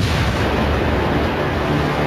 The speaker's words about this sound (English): The Big Bang. The birth of time itself.